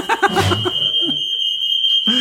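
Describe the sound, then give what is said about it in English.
A house fire alarm goes off with one continuous, piercing high-pitched tone that holds steady throughout. People talk and laugh over it at the start, and a voice returns at the end. “Fire alarm's going off in the house.”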